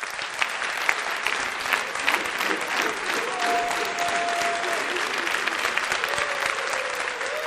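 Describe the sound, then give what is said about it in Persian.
An audience applauds the coaches with continuous, dense clapping at a steady level, and a few faint tonal sounds rise briefly through the clapping. “سلام، کوچاتون رو تشویق کنین.”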